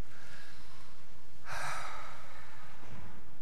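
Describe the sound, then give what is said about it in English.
People breathing in together, heard as one soft, airy inhale that swells briefly midway and fades, with near silence before and after. “Let's all breathe together right now.”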